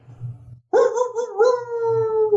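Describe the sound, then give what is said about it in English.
A single sustained creature howl from a sound effect starts abruptly after a faint low hum, holding a strong tone that sinks slightly in pitch before it fades out. “Get that howl in there.”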